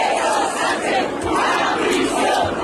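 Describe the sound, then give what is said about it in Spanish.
A protest crowd of some 50,000 people in central Madrid chants against the government, with support for Ceuta voiced as well. The dense mass of voices stays loud throughout and swells and dips in a rhythmic, chant-like way. “Manifestaciones en apoyo a Ceuta, pero manifestaciones sobre todo contra el gobierno, como se escuchaba en los cánticos, por ejemplo, en esta, 50.000 personas en el centro de Madrid.”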